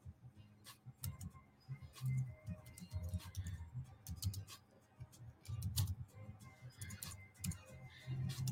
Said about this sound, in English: And then we just type this in for Instagram.